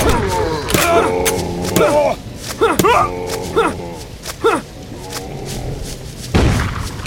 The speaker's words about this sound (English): Come on, shoot him. Shooting with the shotgun.